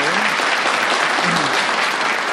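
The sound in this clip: Audience applause at a group sharing session: thick, continuous clapping from many hands, loud and even throughout the short burst.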